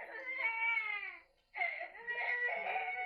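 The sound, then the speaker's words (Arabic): The neighbours' baby cries faintly in two sustained wailing bouts separated by a brief pause, its high, tremulous voice continuous throughout. “مش هنخلص ابدا من عياط ابن الجيران ده.”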